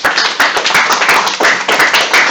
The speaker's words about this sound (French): sous vos applaudissements